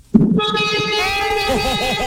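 A car horn sounds in one long, steady blast held for about two seconds. The tone is loud, bright and strongly pitched, with a slight warble in its lower part, from a caller in Barranquilla.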